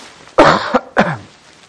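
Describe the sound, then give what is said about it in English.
Two coughs from a person, the first longer, rougher and louder, the second shorter and slightly softer, heard alone with no talk around them. “I'm going to cough.”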